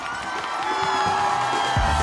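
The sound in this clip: Two people cheer as a DJ takes position behind the decks at a DJ set. Their whoops and shouts ride over continuous, loud electronic music tones.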